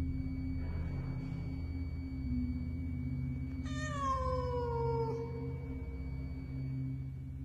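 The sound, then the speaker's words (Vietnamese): A cat yowls eerily: one drawn-out meow lasting over a second that slides downward in pitch, standing out clearly above a steady low hum. “Nó đang kêu lên mấy tiếng rùng rợn và hướng đôi mắt vàng khè khè nhìn thẳng vào cái xác của ông Lạc đang nằm ở trên giường.”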